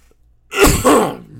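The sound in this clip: Someone with a sore throat clears it in two harsh, raspy bursts, loud and alone, with no talk over it.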